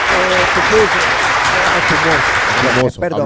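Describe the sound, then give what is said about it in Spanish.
Audience applause for someone who has just danced, steady loud clapping with voices heard over it, cutting off abruptly near the end. “Le vamos a dar un aplauso, le vamos a dar un aplauso a Néstor.”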